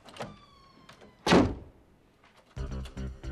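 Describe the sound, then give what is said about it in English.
A door is closed as someone walks into her room, giving one dull, heavy thunk. Fainter knocks come before it and low rumbling sounds follow. “She strides to her room and closes the door.”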